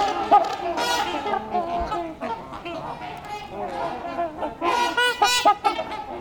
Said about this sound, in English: I'm in a flock of trumpeter swans.